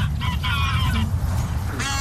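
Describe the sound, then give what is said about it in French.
Geese honk during migration at the Longchamp racecourse in Paris. A few nasal, harmonic-rich calls rise over a constant low rumble of background noise. “Étape notamment incontournable pour les oies en cours de migration.”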